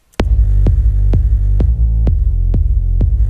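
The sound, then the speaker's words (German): A kick drum and a bassline play together in the same low range, their tones overlapping. Seven evenly spaced kick thumps land over a constant, loud, droning bass hum. “Es läuft jetzt beides gleichzeitig und das Problem ist so ein bisschen, die Baseline ist quasi im selben Frequenzbereich wie der Kick und die werden sich überlagern.”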